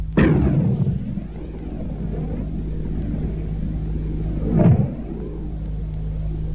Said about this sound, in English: The 105 millimeter tank gun fired from an M60 main battle tank.